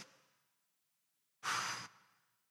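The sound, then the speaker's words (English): A voice imitates blowing on dying barbecue coals with one short, forceful, breathy blow heard alone, following a fading breath at the start. “blow them, kind of stir them up a little bit. We do a blast, a blow, we breathe on the coal and bring back the fire, bring back the heat, bring back life.”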